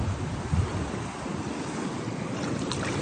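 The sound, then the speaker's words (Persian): Sea waves and surf give a steady, dense rushing wash, with wind noise mixed in, continuous and fairly loud throughout with no voices. “ولی هیچ صدایی صدای دریایی کاسپیان خودمون و خلیج فارس خودمون نیست.”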